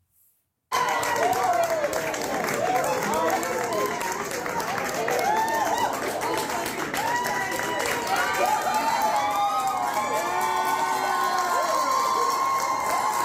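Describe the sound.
Nebraska Democratic state legislators cheer after a bill fails. A burst of loud cheering, whooping voices and clapping starts after a brief silence and stays dense and sustained to the end.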